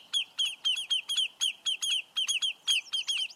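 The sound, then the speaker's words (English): Lesser yellowlegs give alarm calls near their nest: many sharp, high, ringing notes in a rapid, insistent series, often in quick pairs, loud and alone against a quiet background. “when the shorebirds called lesser yellowlegs sense a threat to their nest, they'll put up an unforgettable racket to drive the danger away.”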